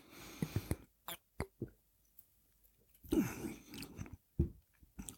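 Chewing on a bite of food, with many irregular clicking and smacking mouth noises in uneven bursts. It is fairly faint, with short quiet gaps between the chews and no talking.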